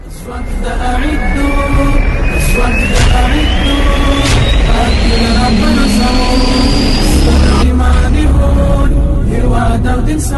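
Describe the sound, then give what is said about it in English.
Helicopters taking part in military commando training give a loud, continuous engine roar with a turbine whine that climbs slowly in pitch, dense and steady throughout, with other low tones mixed in. “diyaaradaha helicopters ah ayaa ka qayb qaadanaya tababarka”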